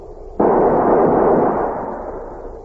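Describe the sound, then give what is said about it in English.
A squad fires a rifle volley as a funeral salute: one sharp, loud crack followed by a long rumbling tail that slowly fades away. “Floyd's squad stood straight and tall, ready to honor him with a volley from their rifles. Ready! Fire!”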